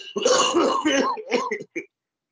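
One person coughs and clears their throat in harsh, rasping bursts, then pauses briefly before a short final cough.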